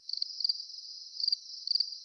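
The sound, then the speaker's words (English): Crickets chirping as a sound effect: a faint, thin, high trill running steadily, with a few brief, sharper chirp bursts standing out, and no voices. “Without you, this station would be crickets.”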